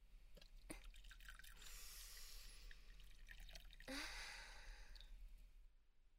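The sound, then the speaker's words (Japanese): Tea poured from a pot into a warmed teacup gives a faint, continuous liquid trickle with soft drip-like accents and a brief swell of the stream near the end of the pour. “では、こちらのポットから、これまたあらかじめ程よく温めておきましたティーカップにお紅茶を注いでいきます。”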